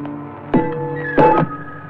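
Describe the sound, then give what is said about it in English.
Two heavy thuds about two-thirds of a second apart as a metal breastplate, worn under a poncho and scarred by seven bullets, drops to the ground against a faint steady background tone. “The breastplate falls, 7 neat bullet scars at the heart.”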